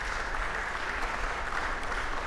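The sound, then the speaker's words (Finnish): A small, enthusiastic audience applauds after a Rameau suite at a concert in Rymättylä's St. James church, a medieval stone church; dense, steady clapping that stays fairly even and moderately soft throughout. “Yleisöä tänne ei mahdu kovin paljon, mutta se on sitäkin innostuneempaa, kuten kuuluu.”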